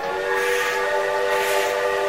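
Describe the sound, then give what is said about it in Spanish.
A departing train, the first of its group and carrying 120 children, sounds a loud, sustained, steady whistle over a continuous rumble. “Pronto partió el primer tren con 120 chicos”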